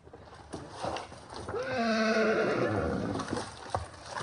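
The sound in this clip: A donkey brays in Brazil, with parrots also present there. Its call is a drawn-out, harmonic bray that swells to a loud peak in the middle and then tapers, with faint, scattered background noises before and after.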